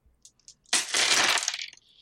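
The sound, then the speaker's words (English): Many dice rolled together: a few light clicks, then a dense burst of clattering and rattling that lasts about a second before stopping, with no voices. “It's a lot of dice. I rolled a 3 on the die.”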